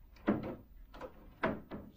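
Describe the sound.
Dresser drawers are pulled open in a hotel room. Several faint wooden sliding scrapes come in short, separate bursts, with quiet gaps between them.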